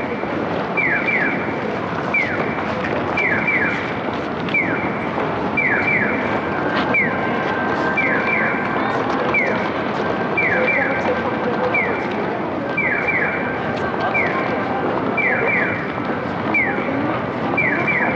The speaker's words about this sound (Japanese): 今聞こえるピヨピヨという擬音式の音響信号は実は東西にわたる横断歩道であることを表しているそうです。